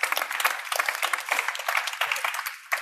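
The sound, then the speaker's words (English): An audience applauds to welcome a speaker at a panel event, a dense and fairly loud stream of clapping that stays steady from start to finish. “Please give a big hand.”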